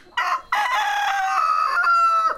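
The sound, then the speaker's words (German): A rooster crows on a farm in the savanna, where chickens and goats roam in humid heat at the end of the dry season. A short opening note is followed by a long, loud, drawn-out call. “Hühner und Ziegen laufen herum.”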